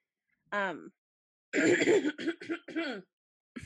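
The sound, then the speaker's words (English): A person clears their throat: a short voiced hum, then a series of rough, raspy bursts, loud and close, with silence between. “No, just terrible junk in my throat.”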